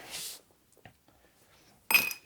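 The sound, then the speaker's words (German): Glass clinks from a jar being filled with candied nuts: a short burst of clinking, a few faint taps, then a brighter, louder rattle of glass at the end. “Ich hau das jetzt voll, das Glas, und dann... Die kandierten doch okay, super. Nüsse kleben am Deckel.”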